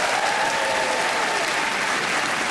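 Audience applause for a band's performance on a comedy show: a dense, even wash of clapping that continues steadily without a break.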